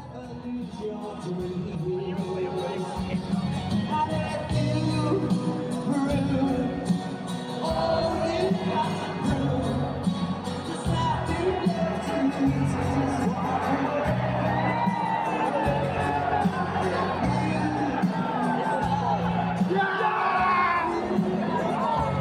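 A crowd cheers at a live rock concert, with sustained shouts, whoops and roaring that stay loud and continuous throughout.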